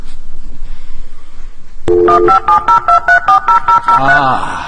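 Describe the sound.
A dial-up modem connecting to the internet: a low hiss of line noise, then a sudden tone and a quick, loud run of touch-tone dialing beeps, ending in a denser warbling tone.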